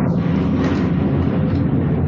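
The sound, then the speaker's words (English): Jet airliner landing near Maho Beach on St. Martin, a loud, steady low roar that stays even and unbroken throughout. “Did you hear that? I'm sorry. Yeah, what was that? Was it an A340 landing or something? I don't know. I'm sitting at the Royal Sonesta Maho Beach”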